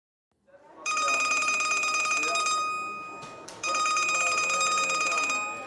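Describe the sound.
A telephone rings with two long, bright, steady trills separated by a short pause, heard alone with no voices.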